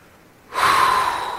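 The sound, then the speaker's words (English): A single deep breath drawn in, starting abruptly and held as a steady, breathy rush for about a second before easing slightly at the end, with no talking over it. “We're halfway. Everybody take a deep breath.”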